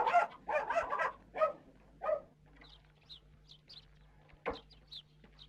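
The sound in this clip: A dog barking in a village yard with chickens: a run of several sharp barks in quick bursts, then quieter, with faint bird chirps following.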